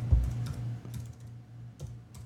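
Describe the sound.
Computer keyboard typing as a search is entered: a few scattered, light key clicks over a steady low hum, with no voices.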